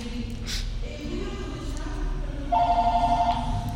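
A telephone rings: a short, warbling electronic trill near the end, over a steady, noisy background hum.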